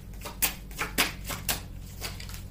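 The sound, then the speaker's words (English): Tarot cards drawn from a deck give soft snapping flicks, a few crisp clicks at an uneven pace over a low steady hum. “Let me go ahead and take some more cards right quick. May I have some more cards, please?”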